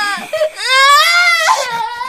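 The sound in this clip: A young child cries after falling down: a loud, drawn-out, high, strained wail that rises at the start, catches and breaks briefly, then carries on sobbing.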